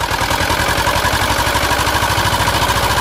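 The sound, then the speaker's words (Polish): Motorboat with an Ursus engine entering a bay, the motor chugging in a steady, rapid low pulse under a rough, loud drone that holds evenly from start to end. “Motorówka z silnikiem Ursusa wpłynęła do zatoki.”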